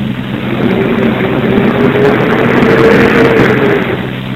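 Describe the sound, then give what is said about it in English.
A commercial garbage truck passes with a heavy, low engine rumble and a broad roar that swells to a peak near the end and then eases slightly, with a faint tonal whine inside the noise. “Comes a garbage truck.”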